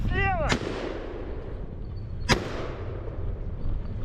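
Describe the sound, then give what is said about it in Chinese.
Gunfire from a moving vehicle at low-altitude targets on an anti-drone training range: two sharp, loud cracks spaced almost two seconds apart over a constant rumbling background. “我们现在是位于机动射击的跑道上，训练的科目即机动车行进中对低空目标的射击。”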